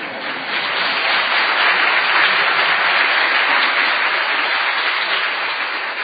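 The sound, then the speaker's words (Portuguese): A church audience applauds a small child standing at the front, a loud, continuous burst of clapping that swells slightly and holds steady for several seconds. “Ele não quis ir para a aulinha ainda, porque ele queria ficar em pé e para todo mundo bater palma para ele também.”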